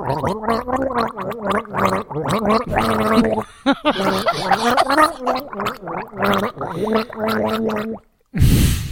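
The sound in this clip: A person gargles water to a melody, the bubbly tones stepping up and down in a steady sung rhythm for about eight seconds before breaking off.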